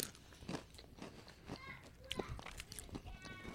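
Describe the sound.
Jalapeño Ranch Ruffles potato chips crunch: a few crisp bites and bits of chewing sound faintly under people talking.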